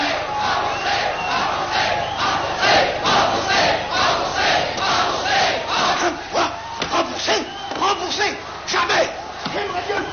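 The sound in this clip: A live audience shouts loudly in rhythmic, surging bursts. Many voices rise and fall together throughout, with no single voice standing out.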